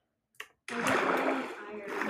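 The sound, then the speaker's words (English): Water poured from a bucket onto a lava pool in Minecraft. A brief blip is followed by a rushing splash that flows steadily for about a second and a half. “You found lava? Lava pool? Yeah, that's how you make get water with your water bucket.”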